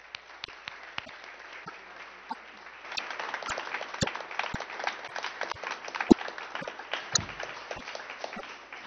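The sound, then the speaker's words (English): An audience applauds in church to welcome new members, with dense, steady clapping that runs throughout and grows slightly fuller after the first few seconds, with occasional sharper single claps standing out. “Beloveds, please add your hand of welcome as these new members turn to their seats.”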